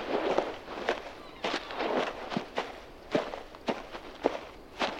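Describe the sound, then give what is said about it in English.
Footsteps of someone walking away land in a steady, even rhythm, many crisp soft-soled steps with no talk over them. “Don't look back. Just keep walking.”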